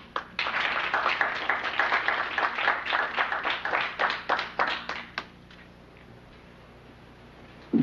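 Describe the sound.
An audience claps to welcome a doctor before a talk and question period on inoculation. Distinct, fairly sparse claps patter for about five seconds, then die away into near quiet.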